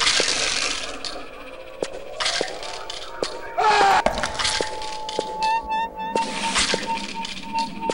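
Video game sound effects as an enemy dies and its stinger peels off: bright metallic clinks and chimes, several sharp clicks, and a sustained tone that holds through the second half.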